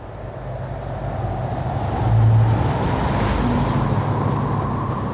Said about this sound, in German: Die Segel flattern und der Klüverbaum schlägt hin und her. Mit einer wahnsinnigen Geschwindigkeit rast Donalds letzter Konkurrent über den Atlantik.